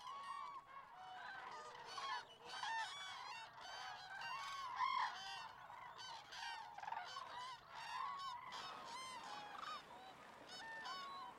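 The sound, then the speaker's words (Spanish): Cranes and other waterbirds calling in a dense flock, with many overlapping honking, trumpeting cries that run continuously without pause. The calls stay fairly faint throughout. “Las grullas y otras aves de ambientes acuáticos viajan miles de kilómetros todos los años en busca de aguas acogedoras que les permitan alimentarse durante el invierno o criar a sus pollos.”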